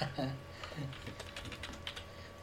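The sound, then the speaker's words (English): Typing on a computer keyboard: a quick, uneven run of many light clicking keystrokes, with a brief voice at the start. “I've just typed in High Gutenberg.”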